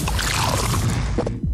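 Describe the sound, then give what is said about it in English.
Beer from a new 500 ml Castle Light can is poured, giving a continuous fizzing, hissing gush that holds fairly steady and loud before tapering off at the very end. “That is the sound of the new 500 ml Castle Light can, turning life light side up.”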